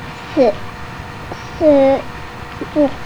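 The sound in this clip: Cat meowing: three plaintive, tonal meows, the middle one longest and held, the other two short, each fairly loud against a low background hum.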